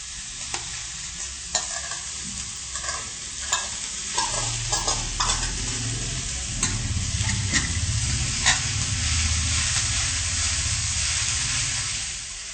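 Food is mashed and stirred with a spoon as it cooks in a pan, making a steady sizzling hiss throughout, with repeated scraping and tapping strokes on top.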